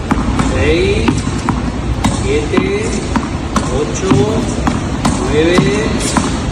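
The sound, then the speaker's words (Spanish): Tennis balls struck with a racket during a training session, the player hitting right-handed again: many sharp, bright pops in a steady, repeating rhythm over a constant noisy background. “Carlos Alcaraz ha vuelto a entrenar y a golpear por fin la pelota, la bola, con la mano derecha. Y suena así.”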